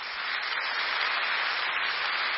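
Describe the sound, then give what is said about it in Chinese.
An audience in a church applauds God, a dense and continuous stretch of clapping that sounds somewhat muffled and even throughout. “再给上帝一个掌声好吗？”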